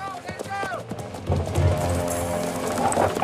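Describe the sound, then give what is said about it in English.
Horses ridden up to the entrance of a mine make clip-clopping hooves, a steady patter of hoofbeats that grows louder midway, heard beneath a man's talking. “They ride over to an old man who's keeping an eye on some machinery.”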